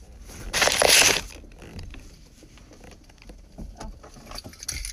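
Keys jangling: a loud, bright metallic rattle lasting about a second, followed by faint scattered clinks and rustling.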